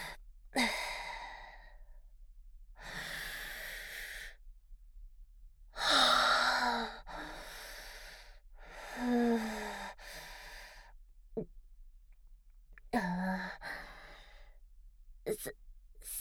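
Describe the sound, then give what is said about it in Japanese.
Deep breaths taken alone in a quiet setting: several slow, airy inhales and sighing exhales separated by silent pauses, a few swelling louder than the rest. “深呼吸します。”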